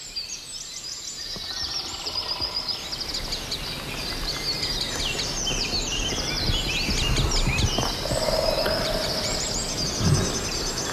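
Wood sandpiper flies overhead, giving sharp, high chirping calls against a dense, noisy backdrop of other birdsong in woodland rich in dead wood.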